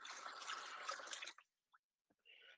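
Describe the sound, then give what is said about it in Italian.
Running tap water pours steadily as someone washes their hands, a dense rushing stream that cuts off after about a second and a half, followed by a couple of faint drips. “adesso mi lavo le mani”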